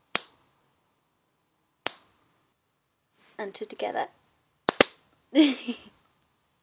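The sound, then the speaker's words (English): A leopard-print bra strap with black lace trim snaps against the skin in sharp, dry cracks: two single snaps, then a voice speaks briefly, followed by two snaps in quick succession and more talk. “He asked for bra strap snapping.”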